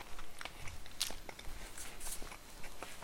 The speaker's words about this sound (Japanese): 今ね4枚目4枚目食べてるけどあと3枚あんだよ無理だよな